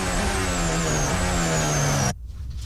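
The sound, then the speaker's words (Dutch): A Formula 1 car's engine wails in an onboard recording from Lance Stroll's car at the Spanish Grand Prix, a car with brake problems. The high, steady note dips slightly partway through, then cuts off abruptly. “Onboordgeluid en de bijbehorende problemen voor Lance Stroll.”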